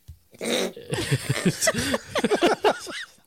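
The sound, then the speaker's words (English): After beer is snorted up the nose, a person coughs and sputters in a rapid run of many short, harsh, voiced bursts that crowd together with choking breaths. “Oh my god, that hurts. Just burns the sinuses when you snort beer up into your nose.”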